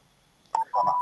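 Telephone keypad dialing tones as a call is placed back after a hang-up: two clear, steady electronic beeps, a short one followed by a longer one, alone with no talk.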